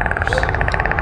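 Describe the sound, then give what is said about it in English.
A voice imitating a purring predator or dolphin sound, a rapid, evenly pulsing throaty trill held steady throughout. “Is that sort of a purring sound? That's a noise of some sort. It's been referred to as a predator sound or a dolphin sound.”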